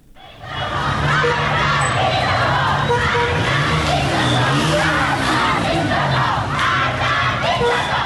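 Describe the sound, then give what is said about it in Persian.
A large crowd of schoolgirls in Qom, Iran, chants anti-government slogans at protests over Mahsa Amini's death, a loud, dense mass of shouting voices that holds steady from start to end. “شمار از دختران در قم چادرهایشان را در دست گرفتند و شعار مرگ به دیکتاتور سر دادند.”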